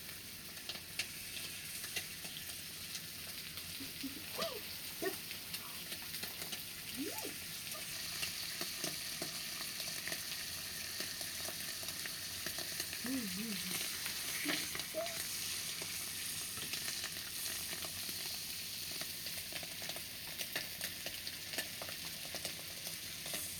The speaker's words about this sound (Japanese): よしよし、いい焼き加減になってきた。完成っと。